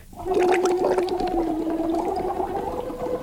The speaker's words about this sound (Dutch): En wat we dus ook doen is bubbelen op een liedje.